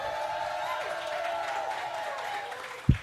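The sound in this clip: Applause and cheering from an excited live audience at a school event: a steady, dense wash of clapping and crowd noise with some voices, ending with one sharp thump.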